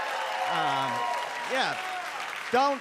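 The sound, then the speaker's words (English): Applause from a comedy club audience, a steady bed of clapping with a few voices calling out over it. “I don't know what the fuck you're applauding for. Don't do it.”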